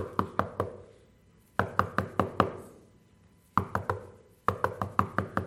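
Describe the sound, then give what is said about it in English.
Knocking on a door in four separate bursts, each a quick run of several sharp raps, with short silent pauses between the groups. “Don't pound on the door or knock incessantly, okay? Don't sound aggressive when you're knocking on the door.”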